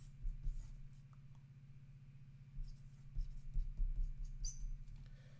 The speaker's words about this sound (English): Okay, let me write this down.